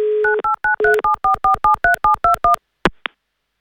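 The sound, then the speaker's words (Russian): A telephone dial tone hums steadily, then a long run of short, evenly spaced keypad dialing beeps follows, ending with a couple of brief clicks. “Звоним Алексею.”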